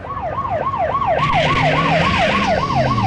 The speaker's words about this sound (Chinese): 警笛骤然响了起来，开着摩托的交警停在了车前。